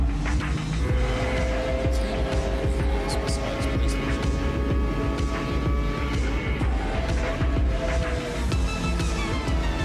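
A racing car engine roars in the video game Gran Turismo. It is a loud, steady drone with shifting engine tones that runs the full ten seconds.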